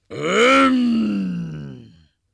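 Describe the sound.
A human voice imitates a monster's roar, one loud, sustained groan lasting about two seconds whose low pitch slowly sinks before it cuts off into silence.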